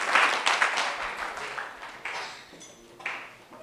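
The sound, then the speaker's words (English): A church audience applauds as they stand, with a dense burst of clapping at the start that thins and fades, then swells briefly a couple more times before dying away. “Put your hands together for Jesus and stand to your feet.”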